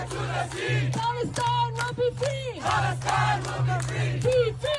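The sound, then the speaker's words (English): Protest crowd chanting in New York City: many voices shout a rhythmic slogan in unison. The chant is loud and steady, with short pauses between phrases and no separate speaker. “Here's the sound of a protest in New York City.”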